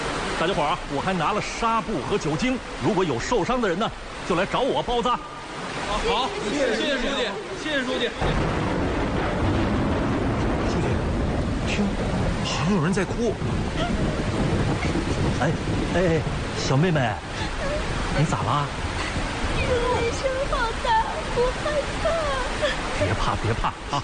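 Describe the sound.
Heavy rain pours down outside in a steady, dense roar that fills the whole clip, with people talking over the constant downpour.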